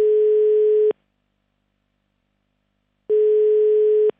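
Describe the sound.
Steady telephone tones sound while someone is called on a mobile phone: two identical beeps, each just under a second long, separated by a silent gap of about two seconds.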